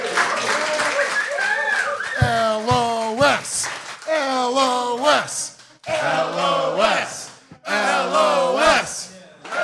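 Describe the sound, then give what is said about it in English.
Rowdy live-show crowd cheering, yelling and whooping in loud waves of overlapping voices, with brief dips between bursts. “Yeah, dude, we gave out cocaine to everybody in this crowd before the show. Yeah. Look, they are wired. Getting fucking wild.”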